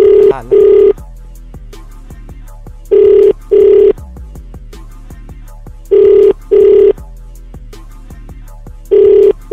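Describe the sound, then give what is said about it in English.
A telephone rings after a number is dialed, sounding as a steady double-pulse tone that repeats about every three seconds: three full ring pairs and the start of a fourth, with quiet gaps between and no talking. “Let's dial the number up and see what's what.”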